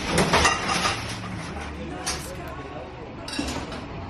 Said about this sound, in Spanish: Dirás, ¿qué es esto? Bueno, pues yo te lo explico. Este es el sonido de un horno, ¿eh? De un horno de pan, de una panadería, la de Eduardo